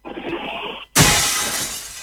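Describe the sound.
A clay water jug breaking: a sudden loud shattering crash about halfway through that decays into scattered fragment noise, preceded by a steadier, softer rushing sound.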